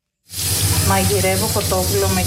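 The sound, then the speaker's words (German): Chicken meat sizzling as it cooks, a dense, steady hiss that begins abruptly and carries on under a speaking voice. “Heute gibt es Hühnchen mit Bandnudeln. Ich koche erst das Hühnchenfleisch und bereite die Tomatensoße zu.”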